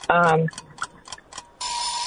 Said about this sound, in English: There's the buzzer